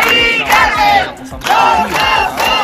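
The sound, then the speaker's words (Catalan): A crowd of more than a thousand protesters outside a government building in Barcelona, gathered against an eviction, chanting and shouting in loud, repeated surging bursts of many voices. “Més d'un miler de persones es van reunir ahir a la tarda davant la delegació del govern espanyol a Barcelona en contra del desnonament de la Mari Carmen.”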